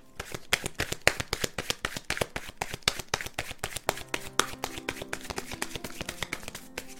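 Oracle cards being shuffled by hand: many rapid, crisp riffling clicks and taps run steadily across the whole stretch at a moderate level, with no talk over them.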